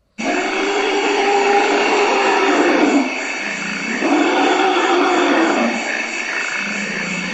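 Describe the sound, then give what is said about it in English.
Forest elephants in Central Africa give two long, loud, harsh rumbling roars of about three seconds each. A brief quieter gap separates them, and a lower sound continues after the second call. “Here's the sound of forest elephants in Central Africa, reported 11 years ago by NPR's Radio Expeditions.”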